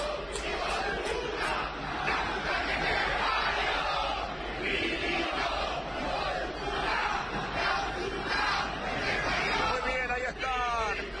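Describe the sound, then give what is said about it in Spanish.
Angry Racing football supporters in a stadium, a massed roar of shouting and jeering that stays loud and dense throughout, with individual yells rising above the crowd babble. “la bronca, la impotencia de los hinchas de Racing. Escuchen el público de Racing.”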